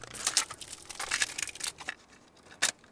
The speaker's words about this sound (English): That's the sound of a brand new cassette tape being unwrapped and put into a cassette deck.